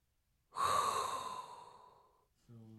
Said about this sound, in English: There is only one thing left to do, and that is inhale a hot breath